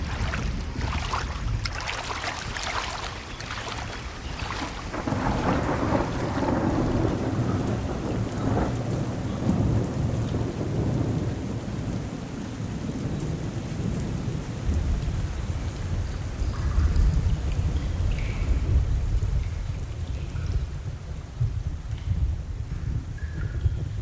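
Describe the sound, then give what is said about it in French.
Heavy rain pours steadily while thunder rumbles low and long as a thunderstorm approaches over a river, the downpour continuous and loud from start to finish with no voices. “Il y a un orage qui semble encore 10 fois pire que l'autre. Il s'en vient droit sur nous.”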